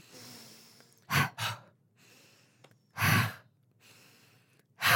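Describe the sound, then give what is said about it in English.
Several sharp breaths are heard, each drawn in through the nose and pushed out through the mouth, as loud separate bursts with pauses between them. “Now take 3 fast breaths, inhaling through the nose and pushing the breath out on the exhale through the mouth.”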